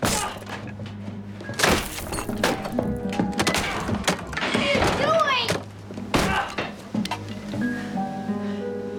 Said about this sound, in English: He angrily smashes the painting against workbenches.